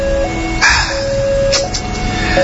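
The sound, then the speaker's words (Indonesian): An electronic railway level crossing warning signal sounds while the barrier lowers: loud, steady ringing tones that hold throughout, with a few brighter pulses breaking in. “Saat bunyi peringatan menyala dan palang pintu pun mulai turun,”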